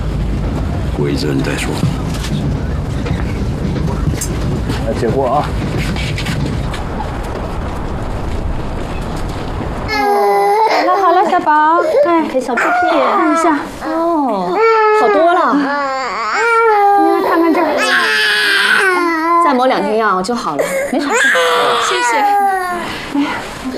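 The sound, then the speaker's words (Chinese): An infant cries loudly in wavering, harmonic wails that rise and fall in sustained bursts, with adult voices talking around it. “好了，小宝，哎呦，我小宝就哭了啊”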